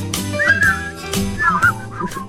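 People whistle a bright tune together in a few short phrases of high notes that rise and fall, over breathy background noise.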